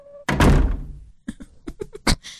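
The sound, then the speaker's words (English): A door is opened and closed: a loud heavy thud, then a few lighter clicks and knocks. “He opened the door to close it again? Yeah, I did.”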